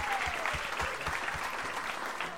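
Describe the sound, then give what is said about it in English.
Audience applause, a dense patter of many hands clapping at a steady, even loudness throughout with no voices standing out. “the Dice Man sets it off, how about a round of applause for our first responders? Round of applause.”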